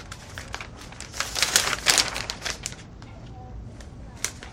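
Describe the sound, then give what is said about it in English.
Newspaper pages rustle and crinkle as a woman scans the paper in an apartment. Dense bursts of papery crackling grow louder mid-clip, then thin to sparse, faint rustles. “At the apartment, she scans a newspaper.”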